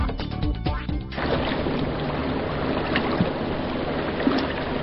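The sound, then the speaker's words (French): A wildlife patrol motorboat runs across a lagoon at Mayotte, a steady broad churning rush of engine and water noise with a brief pulsing texture at the start, no one speaking over it. “bienvenue sur la vedette de la Brigade de la Nature de l'Office National de la Chasse et de la Faune Sauvage à Mayotte”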